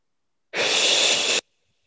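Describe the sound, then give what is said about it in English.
A single deep breath taken during a guided meditation, a steady airy rush lasting just under a second, heard alone. “One more deep breath.”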